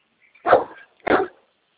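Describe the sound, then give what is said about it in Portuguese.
A dog barks twice indoors, two sharp, loud barks about half a second apart, set off by silence and with no talk. “Vai deitar, cara. Você fica aí latindo aqui, parece que maluco.”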